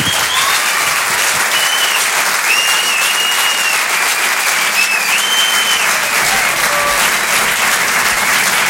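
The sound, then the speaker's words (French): Audience applause and an ovation for a comedian at a live comedy club show in a theatre, a loud, dense and continuous clapping that fills the whole clip without pause. “Mesdames, messieurs, s'il vous plaît, une ovation pour Anne Roumanoff.”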